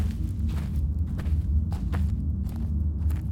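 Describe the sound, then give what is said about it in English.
Footsteps walk out of an office toward the entrance to a lower mine: several steady, muffled steps over a constant low rumble. “Skinner left them to collect their packs and weapons before walking out of the office to the entrance to the lower mine”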